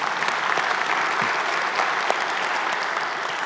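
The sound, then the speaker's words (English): An in-room audience gives a big hand to viewers watching online and on television. Continuous, dense clapping holds at a steady, moderate level from start to finish. “For those of you in the room, would you give our online television audience a big hand?”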